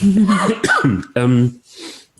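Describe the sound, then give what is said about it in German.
Throat clearing and coughing from a German-speaking man clearing a frog in his throat: a few short, rough, voiced bursts separated by brief gaps, with a fainter breathy rasp at the end. “Entschuldigung, Moment, jetzt habe ich irgendwie einen Frosch im Hals.”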